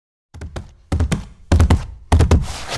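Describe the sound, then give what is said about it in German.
A jingle for a top-three segment on dog encounters sounds as four heavy, booming percussive hits. Each is louder than the last, with a decaying rumble between them and no voices. “Jetzt müsste der Jingle kommen.”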